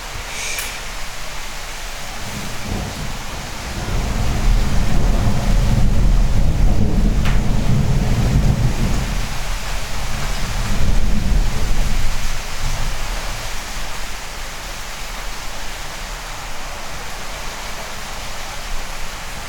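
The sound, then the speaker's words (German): Thunderstorm with rain: a steady, dense hiss of rainfall runs throughout, while a low thunder rumble swells through the middle and then fades back under the rain. “Das ist also ein Gewitter.”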